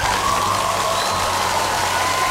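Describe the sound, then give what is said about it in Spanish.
Applause and cheering sound effect: an unbroken, even roar of crowd clapping mixed with cheers and shouts, loud and constant for its whole length. “Y eso se merece un aplauso,”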